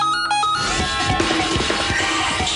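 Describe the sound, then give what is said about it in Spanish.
A radio quiz show's short "match" signal jingle: brief bright tones open it, then a loud, dense, noisy burst with rapid pulsing hits. “para aquellos que no sepan cómo suena la señal match, suena así.”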